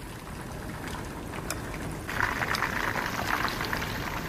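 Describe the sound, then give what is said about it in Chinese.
Food dropped into hot oil for a brief pre-fry before pan-frying. A steady bubbling sizzle grows noticeably louder about halfway through, with faint scattered crackles and no talk. “然后油温上来了哈，我们先下油锅，先略炸过哈，比较好煎呐。”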